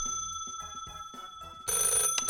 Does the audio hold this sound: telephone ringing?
yes

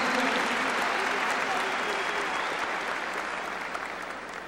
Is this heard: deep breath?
no

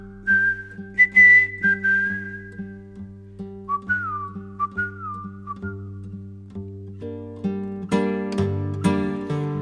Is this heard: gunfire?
no

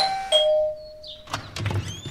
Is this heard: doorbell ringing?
yes

